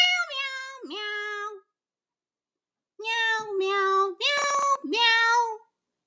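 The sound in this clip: A human voice imitates a cat meowing, giving several drawn-out, nasal meows in two bursts separated by a short pause, with no other sounds.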